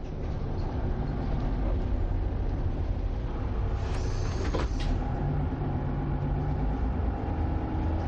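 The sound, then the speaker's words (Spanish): A bus pulling up at a stop gives a steady low engine rumble throughout, fairly faint, with a brief higher-pitched sound standing out midway before the drone carries on. “El autobús se detiene en una parada.”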